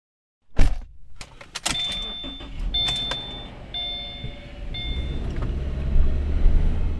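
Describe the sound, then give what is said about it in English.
A car drives through a neighborhood street full of potholes. A steady low road rumble is broken by a few sharp thumps and knocks, with faint whining tones over the top. “So I'm driving around in my neighborhood, and there are just a ton of potholes.”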